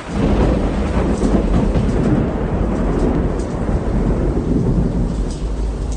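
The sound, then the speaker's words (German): A thunderstorm with heavy rain batters a harbour, producing a dense, unbroken roar of rumbling noise that stays loud and steady throughout, with no voices. “Das Unwetter brach los mit aller Macht”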